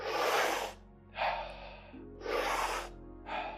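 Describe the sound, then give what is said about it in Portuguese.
Slow breathing in and out during a guided breathing exercise, a few broad, airy breaths that rise and fade in turn, fairly soft and alone without any talk. “Para dentro, deixa ir. Para dentro, deixa ir. Inspira, expira.”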